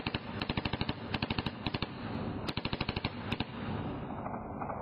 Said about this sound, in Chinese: 就扣住扳机，对着藏身的半透明山岩后一同猛扫。